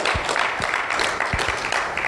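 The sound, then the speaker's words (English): A church audience claps hands in praise of Jesus Christ, giving a brief, dense burst of steady, overlapping clapping at even loudness throughout. “Give Jesus Christ a hand clap of praise.”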